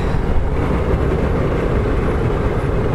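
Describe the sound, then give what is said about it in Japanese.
Steady low rumble heard inside a car, a dense, even drone that holds at the same loudness throughout without variation and with no talking. “やり方を変えて車の中から音声ファイルをお届けします。”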